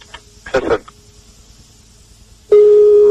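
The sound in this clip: Telephone ringing on the line during an outgoing call: after a brief burst of sound early on and a quiet pause, a steady, clear mid-pitched tone starts abruptly and holds to the end.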